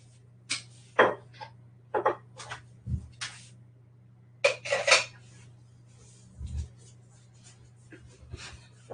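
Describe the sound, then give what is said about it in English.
A spoon clinks and scrapes against a container while mixing apple cider vinegar into vegan buttermilk. The irregular, faint taps and rattles come in a few short bursts over a low steady hum. “After I mix this together, so this is making vegan buttermilk. Just these two ingredients makes vegan buttermilk.”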